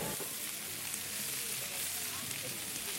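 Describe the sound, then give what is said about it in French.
Onions sizzle in olive oil in a frying pan, giving a steady bright crackling hiss that runs on without a break at a fairly low level. “Ah ben oui, parce que tu as mis de l'huile d'olive dans la poêle, et tu rajoutes les oignons, ça fait psh.”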